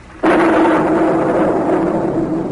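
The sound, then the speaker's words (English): A bomb explodes in the desert with a sudden loud blast, followed by a heavy, sustained roar that fades only slightly over the next two seconds. “Good thing we exploded that bomb out here in the desert.”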